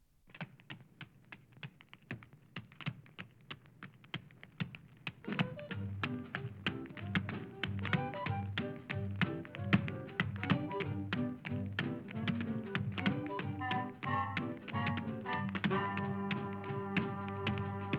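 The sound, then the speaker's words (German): A tap dancer's steps in a film dance number, rapid crisp taps heard alone for about five seconds before music enters under the continuing steps. “In der Steppmusik, die durch den Film zu uns gekommen ist, erscheint immer wieder eine Konstruktion, die die Spannung vorantreibt. Die Musik setzt aus, in dem Moment hört man nur den Tänzer.”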